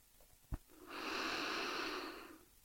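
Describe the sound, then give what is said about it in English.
A single long, soft breath during a meditation, a steady airy hiss lasting a little over a second, with a brief click just before it and quiet around it. “Shanti, Shanti. Keep breathing or repeat after me.”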